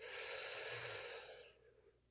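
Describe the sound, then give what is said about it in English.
Deep breath taken during a guided relaxation exercise: a soft, airy, whooshing breath that holds steady and then fades gradually, with no talking. “So go ahead and take another deep breath in.”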